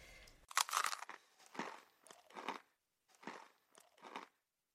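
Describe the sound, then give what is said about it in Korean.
Someone eating a crunchy cookie: five distinct crisp crunching bites and chews, separated by short pauses, clear and alone with no talk. “나는 괜히 먹고 싶지도 않은 쿠키를 입에 가져다 댔다.”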